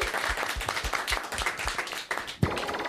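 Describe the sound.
Applause and clapping for a pop singer guest on a morning radio show: a dense, steady patter of many hands with a clear rhythmic beat, and a sharp louder burst near the end.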